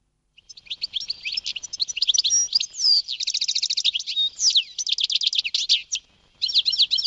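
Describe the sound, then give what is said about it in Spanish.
A European goldfinch sings a rapid, tinkling stream of high chirps, twitters and buzzy trills in dense bursts. It is loud and alone, with a short pause near the end before the song resumes. “Aquí tenemos a un pajarillo muy conocido y cuyo canto a mí personalmente me gusta mucho, el jilguero.”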